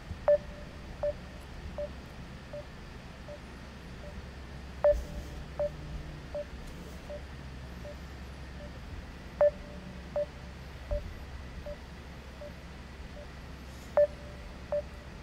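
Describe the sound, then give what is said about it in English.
Telephone dialing tones: short electronic beeps, with a louder beep roughly every four to five seconds and a string of softer, evenly spaced beeps between, over a faint low hum. “So anyway, I want to dial up my boy Mark Edwards and get him on the show.”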